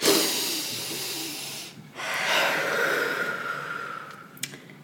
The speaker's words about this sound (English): Let's start today's episode with a deep breath in.